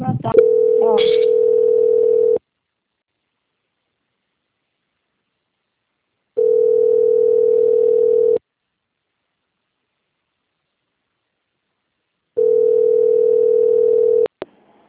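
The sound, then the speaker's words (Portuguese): Telephone ringing tone plays while a call is transferred: three long, steady, low-pitched tones, each about two seconds, separated by roughly four seconds of silence, with faint clicks at the start and end. “Pode fazer um barulhinho como se estivesse chamando no telefone. Mas você não desliga não, tá bom?”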